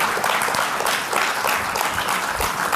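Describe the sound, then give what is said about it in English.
A church audience applauds during a service, steady dense clapping from many hands at a strong, even level with small surges and no speech over it. “And let's give him a clap, encourage him.”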